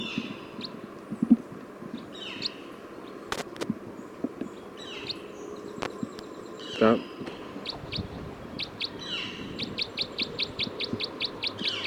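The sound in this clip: A bird is chirping while being recorded, with scattered short chirps and calls early on and then a quick, rhythmic run of high tweets toward the end, along with a few faint clicks.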